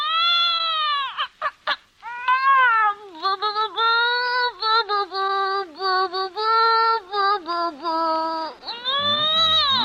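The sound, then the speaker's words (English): Novelty sound effect passed off as a baby's first crooning lesson: many wavering, meow-like tonal wails with sliding pitch, some short and choppy, others long and drawn out, loud and alone without talk. “Well, that's Bing Crosby's new baby getting his first crooning lesson.”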